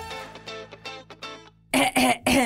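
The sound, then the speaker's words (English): Throat clearing: a person forces out a few loud, rasping bursts, following a stretch of softer voiced sounds. “Need to clear the throat a little bit, especially me.”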